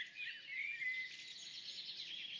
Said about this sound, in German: Hübsches Vogelgezwitscher bei den Aufnahmen. Ja? Ja, wir hatten die Fenster auf.